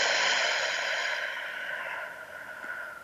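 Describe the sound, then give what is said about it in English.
A slow breath out through the mouth, a soft, airy hiss that stays steady and then gradually fades over about three seconds, with no talking. “let's take a breath in through the nose, out through the mouth.”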